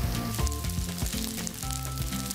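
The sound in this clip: Sizzling as eggplant is heated over an open flame while cooking, a steady bright hiss with crackle running throughout, joined by a few low tonal sounds.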